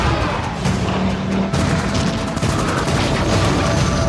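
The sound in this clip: Aerial gunfire as enemy fighters shoot at bomber aircraft: a dense, loud, continuous rattle and roar with no pauses, the shots blurring into a steady wall of noise.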